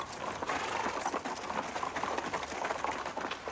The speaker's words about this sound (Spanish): Un escuadrón de policías a caballo sale tras la valla y se dirige al encuentro de los manifestantes.